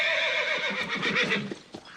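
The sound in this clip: A horse from a comic Robin Hood film whinnies loudly for about two seconds, a high, wavering neigh that quivers and then trails off into fainter snorting at the end.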